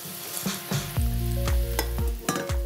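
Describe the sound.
A cream and butter pepper sauce is swirled in a pan as it comes to a boil, giving a steady sizzle broken by several dull knocks as the pan moves.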